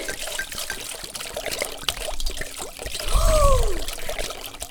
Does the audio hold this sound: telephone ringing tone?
no